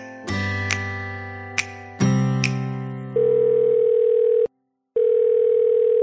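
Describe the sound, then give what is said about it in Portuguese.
Telephone tones while placing a call: a few sharp clicks over a buzzing harmonic tone, then a steady, loud single-pitched tone that cuts out briefly and resumes, with no talk. “agora sim, vamos ligar para a Paulinha Vilhena e ouvir que histórias ela tem para contar pra gente.”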